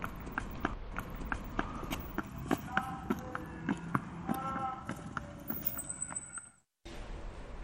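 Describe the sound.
Horse hoofbeats clop in a fast, steady rhythm, with many hard knocks over a busy background. They cut off abruptly into a brief silence near the end.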